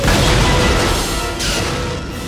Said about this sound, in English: The fuel truck blows up. The explosion wrecks the bridge.